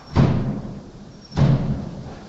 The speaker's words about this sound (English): How do you explain that? I'm sure it's just the wind making the shutters bang or something.